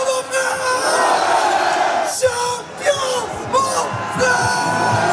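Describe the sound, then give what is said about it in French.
A crowd cheering and yelling as football players are acclaimed one by one on stage, with loud rising whoops and shouts swelling and dipping over a continuous roar. “Sur scène, un à un, les joueurs sont acclamés avec un chouchou.”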